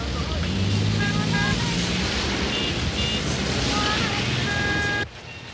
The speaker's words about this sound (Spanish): El centro de Taipei bulle bajo la lluvia a la hora punta.